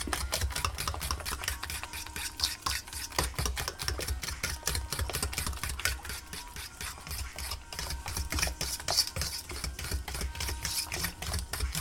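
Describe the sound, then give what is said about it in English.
An egg is beaten into a mix with quick, even strokes that repeat many times in a steady rhythm, a fairly quiet tapping and scraping that runs throughout. “Okay, so I'm going to mix this egg in, break the yolk, beat it a little bit into the mix.”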